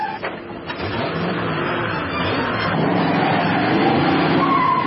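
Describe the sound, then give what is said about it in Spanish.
A car arriving on a snowy road, braking and reversing: continuous loud, rough engine and tyre noise with a skidding quality, holding steady without clear breaks. “Llega el coche de Cruella. Frena y da marcha atrás.”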